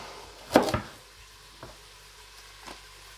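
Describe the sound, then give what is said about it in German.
A knife cuts the tips off carrots on a board while a vegetarian goulash is being made: one louder double chop, then two faint taps over a soft background hiss. “So, dann werden die Spitzen abgeschnitten der Karotten.”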